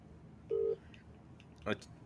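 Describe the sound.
A telephone keypad tone as a call is dialled: one short, steady beep, then a brief click, with no talking.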